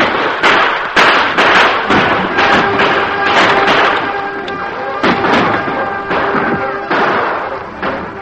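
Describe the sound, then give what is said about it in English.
Gunfire in a radio-drama shootout as outlaws fire on wagon guards: many sharp, loud shots crack out in quick, irregular bursts, overlapping densely. “The crooks began firing at the wagon guards.”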